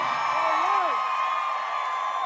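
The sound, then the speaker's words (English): A crowd cheers at a Florida benefit concert held for Hurricane Ian relief. A dense, steady roar carries one voice whooping clearly above it. “Ron DeSantis gets a huge round of applause.”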